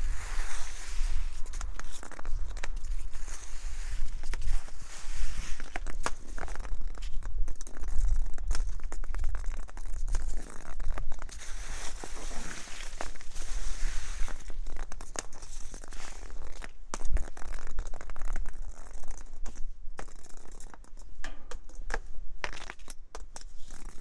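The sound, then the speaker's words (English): Footsteps crunch and rustle through fallen leaves at night, a dense, continuous crackling of dry leaves under many steps with no talking. “Well, I'll just walk back through that little bit and then that'll be it for the leaves for tonight.”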